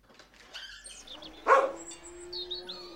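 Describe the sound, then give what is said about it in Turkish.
A guard dog lets out a loud bark midway, announcing someone's arrival, with high chirping bird calls around it. “Gelen biri olunca havlayıp haber veriyor. Biri geliyor anlaşılan.”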